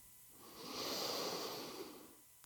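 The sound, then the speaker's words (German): A slow, deliberate deep breath in, taken consciously: a soft airy hiss that swells gradually to a peak and then tapers away, heard alone and fairly quiet. “Ich atme ganz bewusst ein.”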